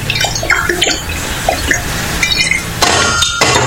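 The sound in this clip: Glass clinks as a drink from a large bottle of S99 is poured into a glass. A few bright, light clinks ring over a splashing, trickling pour, and no one speaks.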